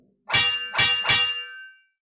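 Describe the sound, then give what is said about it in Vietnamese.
Metal weapons clashing as a sword strikes an iron bow: three loud, evenly spaced clangs, each bright and ringing, with the last one's metallic ring fading out. “Liên tiếp những tiếng kim loại va chạm nhau vang lên”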